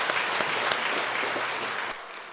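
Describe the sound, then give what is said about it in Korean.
Applause from a church audience, a steady wash of many hands clapping at even loudness that tapers slightly toward the end, with a few sharper claps standing out near the start. “영광의 박수를”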